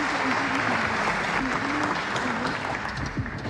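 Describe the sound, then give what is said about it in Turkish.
An audience applauds a radio station's choir of singers and instrumentalists and its conductor at a Turkish folk music programme, a full, continuous clapping that stays strong before tapering slightly near the end. “Radyomuzun çok değerli ses ve saz sanatçılarından oluşan koromuzu ve Şef Soner Özbilen'i gönülden alkışlıyoruz efendim.”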